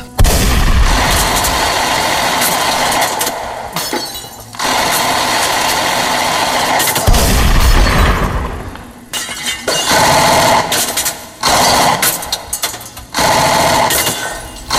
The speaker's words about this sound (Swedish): Jag höjer hagelgeväret och börjar haka loss mot det.